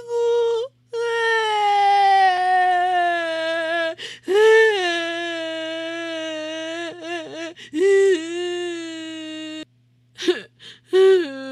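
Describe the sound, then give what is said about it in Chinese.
A voice imitates children crying in long, drawn-out, high wailing sobs, several in a row with a wavering, gradually falling pitch, broken by short gasps and brief pauses, then a few shorter whimpers at the end. “小奈也跟着犹太哭起来了，他哭的眼泪鼻涕到处飞舞。”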